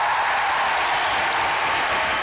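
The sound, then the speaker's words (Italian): Applause from a large gathering as the Pope applauds the Cardinal Archbishop of Madrid, a dense, unbroken hiss of many hands clapping at a steady, moderate level. “Il Papa applaude al Cardinale Arcivescovo di Madrid.”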